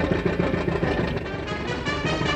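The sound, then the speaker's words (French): A big car's engine roars steadily during a chase through snow at night, a loud, dense and continuous rumble throughout. “Elle les prend immédiatement en chasse au volant de sa grosse voiture.”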